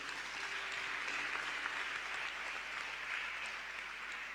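An audience applauds during a church service: a steady, even wash of clapping from many hands, fairly faint and unbroken throughout, with no talk over it.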